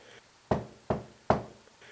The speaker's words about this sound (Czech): Vyňal kamínek, zaklepal třikrát o zem a povídá.